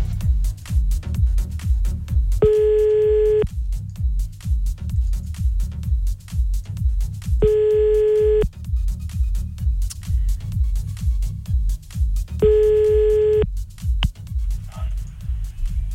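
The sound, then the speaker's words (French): Phone ringback tones while a call is placed: three steady beeps, each about a second long and evenly spaced, over a constant low rumbling background. “Allez, c'est parti, on y va. On appelle tout de suite.”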